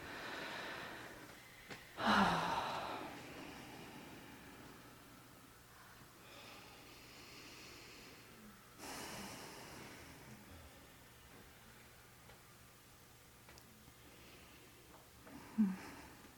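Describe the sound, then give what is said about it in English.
A group of people at a meditation retreat breathing deeply together, a few slow, airy inhales and exhales swelling and fading, soft and faint with no talking. “That's so settling to hear the collective breath. It's like, oh yeah, we're breathing each other's air.”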